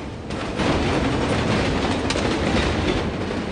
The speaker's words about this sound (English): fly over the tracks inches in front of the train, which carries on past